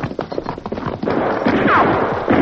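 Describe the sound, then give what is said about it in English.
Hoofbeats of horses being led away in a radio western drama: busy, overlapping clip-clop thuds that start uneven and grow denser and louder, a steady jumble of hoof strikes with no voices. “Quick, we lead our horses to the left. Come on, Silver. Come on.”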